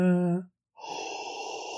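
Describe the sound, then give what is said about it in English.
A single steady breathy exhale from the end of a movie soundtrack follows a short voiced sound and a brief silence. “Oh, breathing. Yep. There it is.”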